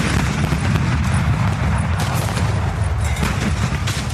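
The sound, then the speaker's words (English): Artillery guns firing from high ground on a misty morning in a Civil War battle, heard as several sharp, booming blasts breaking through a continuous low, dense rumble. “Early that misty morning, Confederate guns opened fire from the high ground northwest of town.”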